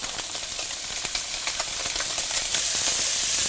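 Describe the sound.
Perch frying in a pan on a stove, sizzling with many small crackles and pops over a steady hiss that grows slightly louder toward the end.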